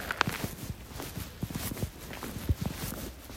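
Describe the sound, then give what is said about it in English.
Footsteps crunch over icy ground in a series of irregular, crisp steps with sharp crackling transients, moderately quiet and heard alone. “This ice is making cool sounds.”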